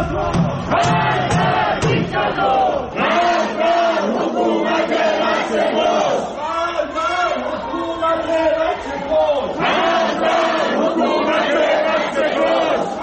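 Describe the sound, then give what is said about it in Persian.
A large crowd of protesters in Tehran's Ekbatan township chants anti-government slogans, many voices shouting together in loud, repeated bursts with brief dips between phrases. “صدای معترضان در شهرک اکباتان را می شنوید.”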